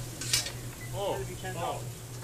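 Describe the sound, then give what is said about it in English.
Onions sizzle on a griddle beside cooked cheesesteak meat, a steady frying hiss with a brief metallic clink early on and light scraping throughout. “So this guy wants a cheesesteak with onions. The meat's all cooked up. Oh man, that's so pretty. Some onions.”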